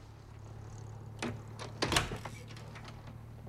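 A door opens with a few faint clicks and a soft scraping creak over a steady low hum. Any footsteps leading to it are too quiet to make out.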